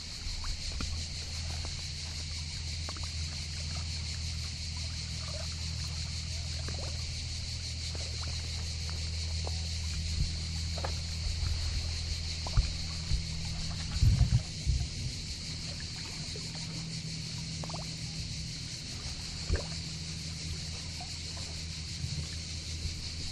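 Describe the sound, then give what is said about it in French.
Steady, continuous rush of sea water forms an even hiss with a low, constant rumble underneath and a few faint knocks near the middle; no voices. “Il y a peu de sons aussi beaux, aussi reposants que celui de l'eau, de la mer.”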